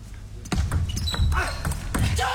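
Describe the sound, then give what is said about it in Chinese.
A table tennis ball bounces during a serve in a tense professional match, heard as a few crisp taps set against talk and background noise. “9平，现在梁靖昆发球”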